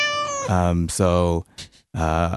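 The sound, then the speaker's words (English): A cat meowing as a sound effect: three loud, drawn-out, tonal meows in a row, with a short pause and a few light clicks before the last one. “Or any animal sound of your choosing. A cat sound. Okay, let's have a cute meow.”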